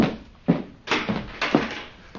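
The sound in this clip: A door thumps as a visitor arrives at a house in Mosul in an Arabic audio drama. A few dull, heavy knocks or thuds land at uneven intervals over a low rumble.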